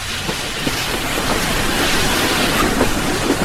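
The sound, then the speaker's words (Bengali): A train clatters out of the platform at Lucknow station, a steady, continuous rumbling and rattling of wheels and carriages, loud and even throughout. “ট্রেনটা ঘটাং ঘটাং করে লখনৌ স্টেশনের platform ছাড়িয়ে বেরোলো”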